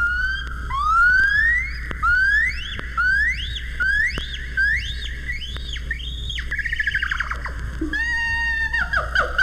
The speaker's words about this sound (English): This is the call of a gibbon ape.